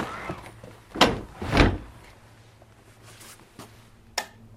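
Door being shut on a cold storage room for vegetables: two heavy, scraping thuds close together, then quieter handling noises and a single sharp latch-like click near the end.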